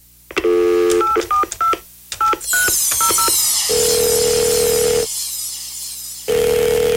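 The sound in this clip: A telephone is dialed for a call: a quick run of many touch-tone keypad beeps in uneven bursts, followed by a hissing line and two long, steady ringing tones with a pause between them.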